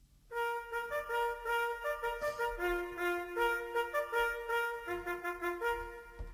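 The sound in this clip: A bugle plays the reveille call: a lively solo run of bright, brassy notes that leap between a few pitches in a quick, bouncing rhythm.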